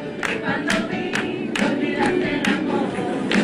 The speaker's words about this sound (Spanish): Miren cómo arrancó el aplauso.